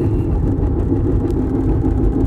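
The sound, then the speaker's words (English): A car driving to the main road gives a steady, low engine rumble with continuous road noise, unbroken and fairly loud, with no talk. “Okay, I'm driving to the main road.”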